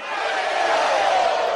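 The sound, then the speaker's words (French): A crowd roars its acclaim at a ruling-party assembly in Venezuela, unanimously approving a presidential candidacy. The sustained cheering holds steady and loud for the whole short stretch, with no break. “Décision approuvée par acclamation et à l'unanimité.”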